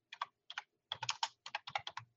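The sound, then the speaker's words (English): Quiet keystrokes on a computer keyboard come in short bursts: a few isolated taps, then quick runs of many clicks with brief pauses between. “So let me see. I'll type that in right now.”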